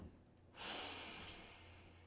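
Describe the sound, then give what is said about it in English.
A long exhaled breath during a yoga class breathing exercise: a steady, breathy rush that starts abruptly and slowly fades while sustained to the end. “And exhale the breath all the way out.”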